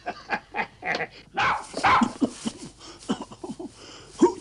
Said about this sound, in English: Who's got a dog in there?